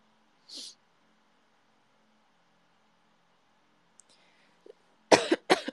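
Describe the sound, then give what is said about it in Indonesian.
Coughing, quiet overall: one short cough early on, then near the end two louder coughs in quick succession, with faint small sounds in between. “Maaf guys kalau batuk-batuk.”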